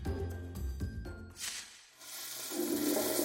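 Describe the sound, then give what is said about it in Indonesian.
Toilet flush triggered by an elderly man pressing the flush button: after a few soft knocks, a hissing rush of water swells up and keeps pouring steadily. “Sambil buang air, sang kakek menekan tombol penguras. Ia lalu menekan tombol itu sekali lagi setelah selesai.”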